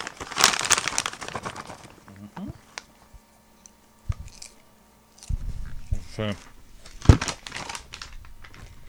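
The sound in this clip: A bag of white cheddar and black peppercorn popcorn being ripped open: bursts of crinkly plastic rustling and tearing, broken up by a brief silence and mixed with people talking.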